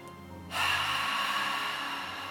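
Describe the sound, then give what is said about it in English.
A deep inhale during a guided breathing exercise: a steady, airy rush of breath that starts about a quarter of the way in and holds to the end. “So go ahead and inhale. And again.”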